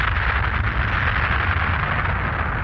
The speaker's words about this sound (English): Transmission locked and blast off sequence is operational. 4, 3, 2, 1. The Hyper Blaster is go.